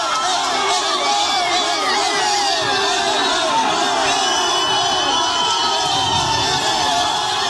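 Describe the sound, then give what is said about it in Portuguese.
Football fans celebrating Neymar's call-up to the Brazil squad: a dense, continuous crowd roar of cheering, shouting and whoops, with many voices overlapping throughout. “pouquinho antes, já tem um início de celebração por torcedores. A gente vai subir até o som, porque acho que é autoexplicativo.”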